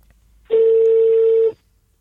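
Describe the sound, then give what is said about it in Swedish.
A single steady ringback tone, about one second long, as a telephone call goes out to a hotel reception on Sturkö; the clear, even pitch sounds alone, with quiet before and after. “testa att ringa receptionen”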